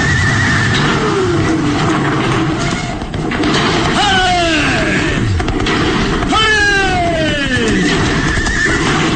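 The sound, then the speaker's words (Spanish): Horses neighing as a bridge collapses, a radio drama effect: two long, falling whinnies ring out over loud, continuous rumbling noise that runs through the whole clip. “El puente se derrumba en su totalidad justo en el momento en que Calimán impulsa a los caballos a llegar hasta el otro lado.”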